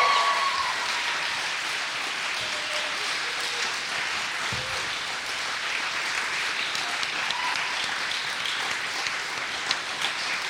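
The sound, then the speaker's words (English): An audience applauds at a live performance event: steady, sustained clapping runs for about ten seconds at an even level, with a few sharper individual claps standing out near the end. “put your hands together.”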